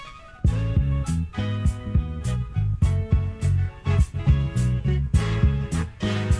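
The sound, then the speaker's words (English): A jazzy music sample from a 1974 record: a laid-back groove of repeated rhythmic chord stabs over a steady beat, with crisp percussion hits recurring throughout, loud and without voices. “That's a jazzy little groove right there.”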